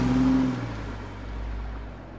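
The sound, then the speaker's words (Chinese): A car accelerating and driving away after its driver, an old woman, steps on the gas; a low engine rumble with a steady hum, loudest at the start and then easing into a softer, fading drone. “老妇人却没有回答，只是踩下了油门，开车离开。”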